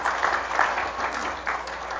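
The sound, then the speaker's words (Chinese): Applause from a church audience for a group of children, a steady dense patter of many hands clapping at moderate loudness for about two seconds, without voices. “让我们再一次给这些孩子一个掌声好不好”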